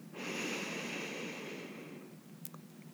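A long, deep inhale during a guided breathing exercise: a steady, airy rush of breath lasting about two seconds before easing off. No talk.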